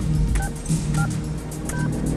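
Telephone keypad tones as the buttons are pressed on a phone in a phone booth: three short, evenly spaced two-note electronic beeps over a steady low hum.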